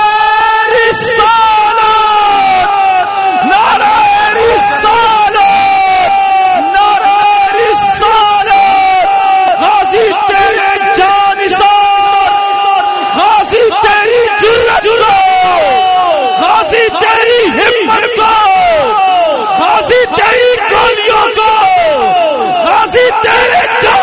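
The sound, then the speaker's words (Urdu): A large crowd loudly chants slogans in unison at a religious rally, with many voices shouting together in Urdu or Punjabi. The chanting is dense and continuous, with rising and falling pitches throughout. “نعرہ لانا ہے تو جنے والا لاؤ.”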